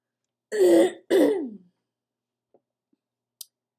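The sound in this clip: A person clears their throat in two rasping, voiced bursts close together, followed by near silence broken only by a couple of faint, tiny clicks.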